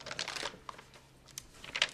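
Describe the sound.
Pages of one of the oldest birth registers in Schweinfurt being leafed through, with a few soft, dry paper rustles and flicks, quiet and separated by short pauses.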